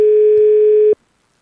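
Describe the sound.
A telephone ringing tone on a call being placed, heard as one steady, mid-pitched electronic beep lasting about a second, then silence.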